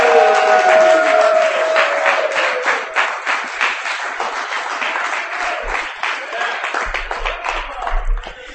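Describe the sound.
Audience applause welcoming the final poet of the evening at a reading, dense clapping that is loudest at first, then gradually thins so individual claps stand out more toward the end.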